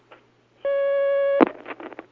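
A steady telephone line tone signals an incoming call: one unbroken electronic beep that holds for under a second, then gives way to a brief clatter of clicks and line noise.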